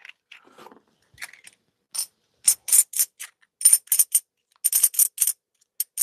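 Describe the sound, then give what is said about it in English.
Pieces of silver clink as they are dropped onto one another: many bright, high metallic taps in irregular clusters, sparse at first and then denser, with short silences between the groups. “Type one if you think that's an amazing sound when you just take the pieces of silver and drop them on each other.”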